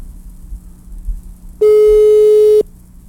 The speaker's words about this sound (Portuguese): Já tá chamando, e aí? Chega mais, rapaz. Pega o celular, pega o fixo. Eu tô te ligando.